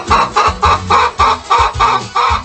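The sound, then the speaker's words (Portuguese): Laying hens cluck loudly in a steady, rapid run of repeated calls, each short cluck following the last in an even rhythm with no talk over it. “Galinha poedeira. R$53,90, saco com 20 quilos. Galinhada vai botar aqui na beleza, viu? Vai, olha, ó.”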